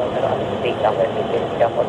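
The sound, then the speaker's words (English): F-15 fighter jets taking off during military training, a steady broad roar of engine noise running throughout beneath a voice talking over it. “I've watched at least half a dozen F-15 jets take off.”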